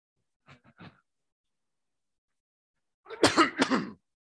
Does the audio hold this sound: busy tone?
no